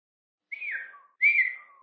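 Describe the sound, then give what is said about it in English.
Shrill whistling from a boy driving his grandfather's sheep and goats out of a kraal: two clear, high whistled notes, each sliding downward in pitch, separated by a short gap with silence around them. “shrill whistling drives the sheep out of grandfather's kraal.”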